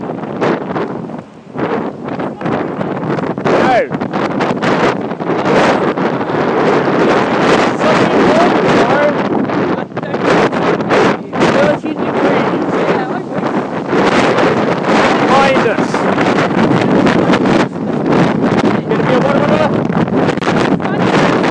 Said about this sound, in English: noisy and blowy out here, isn't it?